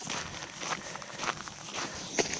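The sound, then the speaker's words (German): Crunching footsteps on a fine gravel path just past an airfield, a walker testing shoes on the loose stones; a steady series of gritty, scraping steps at walking pace, with no talk. “So, jetzt laufe ich auf so ein Stück Weg, kurz hinter dem Flugplatz. Das ist der Härtetest für meine Schuhe. Feiner Kies.”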